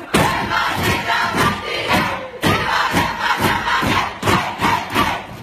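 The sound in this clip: A women's national football team cheers in the dressing room, many voices shouting a rhythmic chant punctuated by regular thumping beats, loud and energetic throughout.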